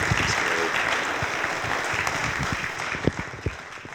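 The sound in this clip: A church audience applauds on a Sunday morning to welcome a speaker. Many hands clap in a dense, steady patter, with a few sharper individual claps standing out as it eases off.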